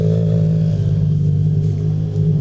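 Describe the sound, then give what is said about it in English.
Rallycross cars rumble as they return from parc fermé, a steady, loud, low engine drone that holds almost level, with no talk over it. “Cars returning from Parc Fermé now.”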